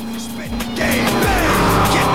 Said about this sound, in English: The car then races off into the night.